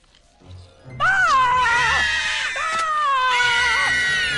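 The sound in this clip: Slugs screaming: shrill, wavering, high-pitched screams begin after about a second and continue unbroken to the end over a low rumble.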